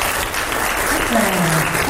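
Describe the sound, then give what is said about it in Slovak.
An audience on a quiz game show applauds right after contestants earn 20 points; the clapping is brisk, dense and even for its whole brief span. “Máte 20 bodov hneď a teda aj tlieskajú vám okamžite.”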